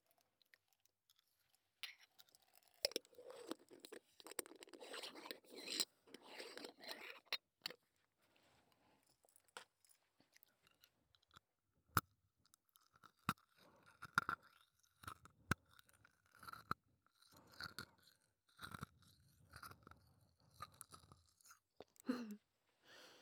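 Hard candy is crunched and chewed in quiet, sharp cracks and crunches, coming in irregular clusters with short pauses between them and no talking.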